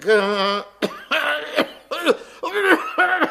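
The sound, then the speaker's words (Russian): A man in a staged comic performance coughs and clears his throat with a string of loud, harsh, voiced bursts, one after another with brief gaps. “Кашель вот в горле свербит.”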